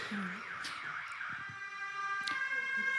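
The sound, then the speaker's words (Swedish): An alarm siren sounds faintly, opening with a wavering electronic tone and then holding steady, high-pitched tones that grow slightly louder toward the end. “nu, nu är alarm, alarm.”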